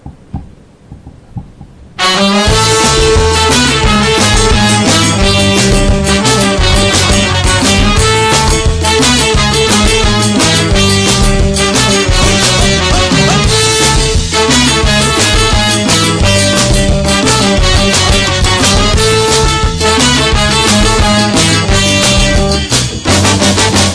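A band's song, track ten of the album, played back: after a quiet opening couple of seconds, loud, dense full-band music kicks in and continues steadily to the end.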